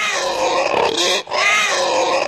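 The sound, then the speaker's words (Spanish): Grunting from a 70 kg castrated York breed pig: two drawn-out, harmonic, nasal grunts separated by a brief gap, fairly loud and heard alone. “Gran rifa de chancho de 70 kilos, caponcito, de raza York.”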